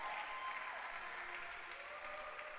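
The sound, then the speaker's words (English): An audience claps at a worship service, producing a faint, steady wash of many hands with no break or clear individual beats across the whole stretch. “Let's clap. Let's give another clap.”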